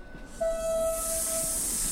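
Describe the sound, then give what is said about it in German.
A train ride in a second-class carriage: a steady whistling tone rings over continuous hiss and low rumble, and the broad hiss swells slightly as the tone fades. “Der Zug. 2. Klasse. Fensterplätze.”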